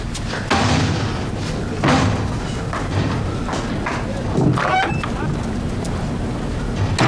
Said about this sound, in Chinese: 锁门去了。